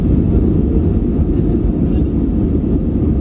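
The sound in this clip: A loud, steady low roar of an airplane in flight, recorded by a passenger on board after takeoff from Ercan Airport; the dense engine and airflow drone stays constant throughout with no breaks.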